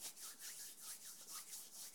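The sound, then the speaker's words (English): Hands rub together close to a microphone, giving a soft, steady series of rasping, brushing strokes in an even back-and-forth rhythm. “If you are a podcaster or radio presenter, do not rub your hands together near the mic, because it sounds like this.”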